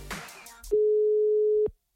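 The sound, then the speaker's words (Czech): Telephone line tone after a number is dialed: a single steady, mid-pitched beep that holds for about a second, following brief talk at the start, then stops abruptly into silence. “Tak vyzkoušíme si, jaký to doopravdy je tím, že vytočíme její telefonní číslo.”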